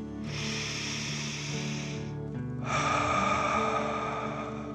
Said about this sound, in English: Let's take another 3 deep dragon breaths. Deep breath, filling up your belly in and out.